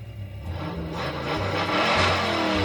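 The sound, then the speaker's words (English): Car engine revving, a continuous rumbling roar that swells slightly in loudness and stays strong throughout, with no voices. “Rev your engines.”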